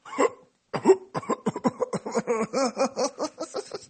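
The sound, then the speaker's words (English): A voice imitates a car engine coughing hard as it struggles to start. One short burst and a brief pause are followed by a rapid run of many choppy, sputtering vocal stutters. “got in my car. This one, it coughed really hard this time. It was like,”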